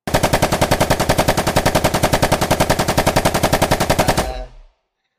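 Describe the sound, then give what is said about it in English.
Automatic gunfire in a video game, one long, rapid, evenly paced burst lasting about four seconds that cuts off sharply. “I'm gonna shoot the character OG Acesta.”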